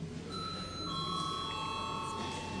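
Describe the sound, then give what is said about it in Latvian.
In a parliament chamber, an electronic bell sounds before a vote. Two steady, ringing tones overlap: a higher one starts first and a slightly lower one joins shortly after. Both hold, faint but clear, over quiet room noise. “Lūdzu, zvanu.”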